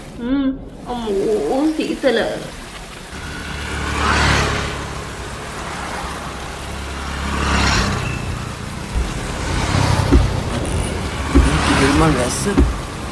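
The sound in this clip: Heavy rain pours down at a roadside bus stop shelter, a steady broad hiss that swells and eases in waves. A voice talks at the start, and speech returns near the end.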